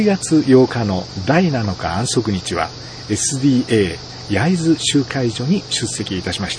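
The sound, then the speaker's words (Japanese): Cicadas in a nearby tree make a steady, faint high drone beneath a man speaking Japanese, who talks over it throughout. “窓を開けて録音しますので、国道20号線の車の音、近くの木に止まっているセミの声が聞こえるかもしれませんが、ご了承ください。”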